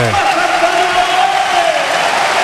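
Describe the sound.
Football stadium crowd noise as a player comes onto the pitch: a dense, steady roar of many voices and applause, loud and sustained throughout, with a brief higher vocal call near the start.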